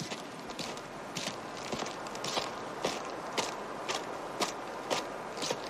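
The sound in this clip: Footsteps walking along a trail: many crunching steps fall in a steady, even rhythm, fairly soft and continuous throughout, with no talking.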